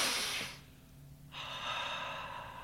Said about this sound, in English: I can give you an example. Couple of deep breaths.